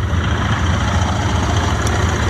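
A motor vehicle engine idles with a steady low throbbing hum and an even pulse, holding the same pitch without any revving. No voices are heard.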